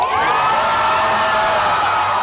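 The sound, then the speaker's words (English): A crowd in Tel Aviv cheering the release of three Israeli hostages freed by Hamas: loud sustained cheering with high whoops and shouts from many voices. “Three more Israeli hostages have been freed by Hamas, the release sparking cheers in Tel Aviv.”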